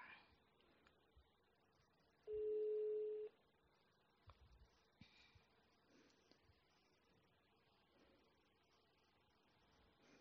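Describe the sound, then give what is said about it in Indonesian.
A telephone call being placed: one loud, steady, mid-pitched ringback tone lasts about a second, then faint clicks and quiet background follow. “It's time to calling Kak Reza. Sebentar.”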